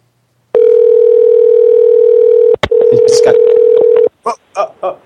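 A telephone ringing tone heard by the caller during a call: a loud, steady, low-pitched electronic tone that holds for several seconds, breaks briefly, then resumes before stopping, followed by a few short, fainter sounds.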